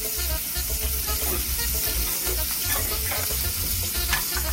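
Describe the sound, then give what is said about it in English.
Shrimp sizzle in a skillet, cooked halfway before a pasta sauce is built on them. The frying hiss is steady and dense with crackling pops throughout, and no talk is heard. “So I already dropped my pasta. So we're going to cook our shrimp about halfway, and then we're going to build our sauce from that.”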